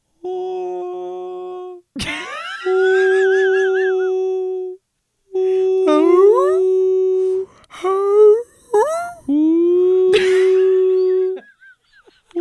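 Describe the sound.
Whale song of long, resonant tonal moans with rich harmonics, some held steady and others sliding upward in whooping glides. Many calls come loud and alone, with brief gaps between them.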